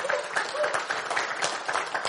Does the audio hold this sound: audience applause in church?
yes